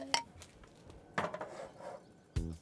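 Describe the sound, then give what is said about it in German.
A pot with a clay lid, holding a filling with butter, lemon juice and vegetable broth, is set onto a stove. Three faint clinks and knocks of pot and lid stand out over quiet kitchen noise. “Das kommt jetzt auf den Herd, damit die Füllung gar werden kann.”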